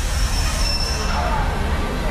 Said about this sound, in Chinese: 清晨，林园火车站里熙熙攘攘，刚刚停在车站的列车的火车头正在不停地向外冒着蒸汽。